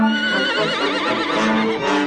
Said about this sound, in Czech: Koně se kolem rozprchli jako dým. Ale jeden z nich se vzepjal, hromově zařičel a začal po mně ve vzduchu bít kopity